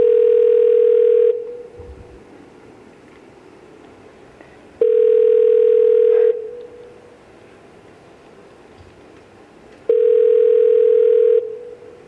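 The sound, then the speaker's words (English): A telephone call rings out: three identical steady electronic ring tones, each just over a second long, separated by long quiet gaps in an even rhythm. “After four rings, you usually get voicemail.”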